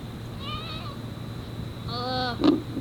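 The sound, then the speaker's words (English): An old cat meows twice, each call a drawn-out, tonal cry of under a second with a clear gap between them, heard over a steady low background. “And that's my cat. He's really old.”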